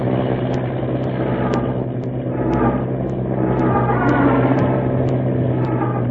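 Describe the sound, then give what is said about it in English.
An early airplane engine roars during a takeoff run, a steady, loud, rough rumbling drone with a low throb and faint, regular high ticks running over it. “Gaining speed now. The plane lurches.”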